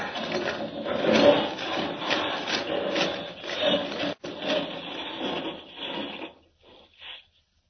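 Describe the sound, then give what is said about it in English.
Radio-drama sound effect of a vehicle boring straight through solid rock: a continuous coarse grinding rasp, fairly loud and unbroken for most of its length, with one short drop-out, then a few brief sputters before it stops. “No time to find the entrance. I'll just drive straight to it through the solid rock. Here goes.”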